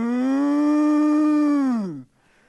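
A cow moos once in a long, steady, loud bellow that holds for about two seconds, then drops in pitch and fades into quiet.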